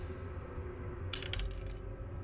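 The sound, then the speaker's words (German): Dice rolled for an investigation check in a tabletop role-playing game make a brief burst of a few quick clattering clicks midway, over a steady low background hum. “Okay, dann würfel jetzt mal auf äh, Investigation, bitte.”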